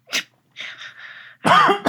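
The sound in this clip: Coughing and sputtering after a drink went down the wrong pipe: a short sharp burst, then a longer breathy rasp, then a harsh voiced cough, loud and alone without talk.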